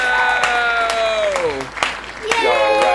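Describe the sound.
Audience applause welcoming a guest onto a stage: a steady wash of clapping through the whole three seconds, with sustained gliding tonal sounds running over it.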